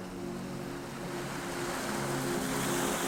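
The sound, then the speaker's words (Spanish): Loud, steady roar of waves and strong wind around a small boat at sea in a storm, a continuous rushing wash with a low rumbling undertone that swells slightly toward the end. “El viento se levantó con violencia. Las olas comenzaron a crecer y la barca crujió como un árbol en plena tormenta.”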